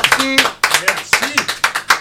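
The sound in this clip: Audience clapping for a group of musical performers after their song. Sharp, individual claps come in uneven bursts, and a voice talks between and over them.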